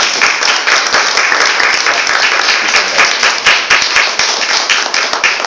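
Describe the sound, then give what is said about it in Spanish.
An audience at a summer lecture series applauds with dense, loud, steady clapping that keeps an even level for several seconds. “le damos un fuerte aplauso, sí, a Juan”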